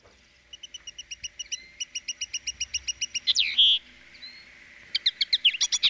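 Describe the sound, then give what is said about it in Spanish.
A linnet sings a rapid, evenly spaced series of high twittering notes, then a louder sweeping phrase, and finishes with another burst of quick, bright chirps. “Venga, pues ponte el pardillo, venga. El pardillo, y qué nombre, el pobre. Bueno, no va a ser el pardillo del grupo, seguro que no, vamos a escucharlo.”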